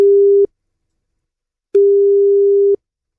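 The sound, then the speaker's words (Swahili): A busy signal sounds on a telephone call that will not go through: two bursts of a steady low-pitched tone, the second longer, separated by a silent gap, with no talk over them. “Hiyo simu yake ni kama iendi through.”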